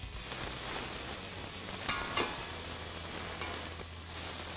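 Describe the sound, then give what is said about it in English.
Shallots sizzle loudly in a hot pan as they are stirred, a dense, steady frying hiss with a couple of brief scraping accents and no talk. “And you can hear by the sizzle that that pan's got some heat. All right, so we're going to throw in our shallots now. Stir those around a bit.”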